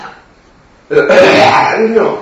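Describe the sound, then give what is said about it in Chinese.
A deliberately demonstrated wet, phlegmy cough, performed to show a damp type of cough in a discussion of Chinese medicine. It comes as a rough, throaty burst that is held for over a second after a quiet start. “你咳给我听，你看小青龙汤的咳法”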